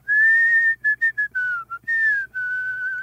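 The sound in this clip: Whistled melody carried by a clear, pure tone: long held notes at the start and end, a run of short detached notes in the middle, and a brief dip to lower notes before the line returns to its starting pitch.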